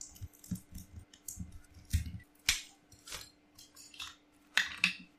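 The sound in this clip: Plastic Lego bricks clicking and clattering as they are handled while building a small toy gavel: many faint, sharp little clicks and taps at irregular intervals, with no talk over them.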